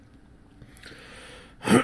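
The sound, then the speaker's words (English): A single brief throat clearing, a short sharp burst right at the end after near-quiet. “Clearing throat.”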